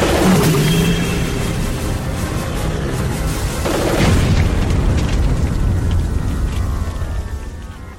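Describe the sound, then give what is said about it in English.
Pressure tanks bursting amid rushing floodwater produce a loud, sustained roaring rumble, with a few heavier blasts punching through before the noise fades at the close. “Careful, Michael! Those pressure things could explode!”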